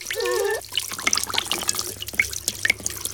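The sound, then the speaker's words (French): Water runs from a salon sink tap over hair during a wash, a steady trickle with scattered drips and small splashes, soft and continuous with no voices. “L'eau coule doucement sur les cheveux.”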